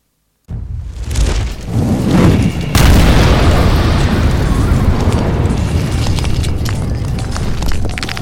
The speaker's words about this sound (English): A fireball explodes, not just 30 feet away from you. Rubble comes flying up into the air.